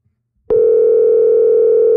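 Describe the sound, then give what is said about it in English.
Telephone dial tone sounds while a call is being placed: after a brief click, a loud, steady, unbroken hum holds at one even pitch with no pauses until the end. “So let's give them a call. Here we go.”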